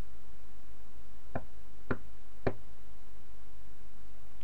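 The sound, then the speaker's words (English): Three sharp, evenly spaced knocks on a door, crisp and distinct against a steady background hiss. “There is a knock at the door.”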